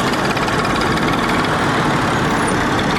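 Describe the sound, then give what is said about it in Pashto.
An old motorcycle carrying two riders runs in rural Afghanistan, its engine a loud, dense, rough drone with a low rumble, steady and unbroken throughout. “پر یو زاړه موټر سایکل”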